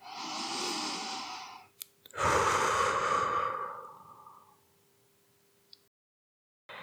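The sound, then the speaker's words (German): One long, deep intake of breath is followed by a long, loud exhale, then silence. The slow, deliberate breathing comes from a guided self-compassion relaxation exercise. “Wenn du willst, kannst du dich auch mal leicht abklopfen und nochmal ganz tief ein- und ausatmen.”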